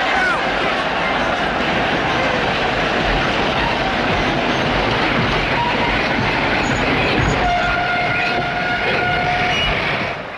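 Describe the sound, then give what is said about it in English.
A passenger train slows into a station with a loud, unbroken rumble and rattle of wheels and carriages. A sustained higher tone joins near the end. “People dart across the tracks as the train slows.”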